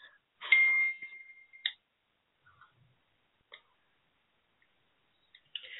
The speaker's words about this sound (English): That's the PIN. I have to type in the PIN.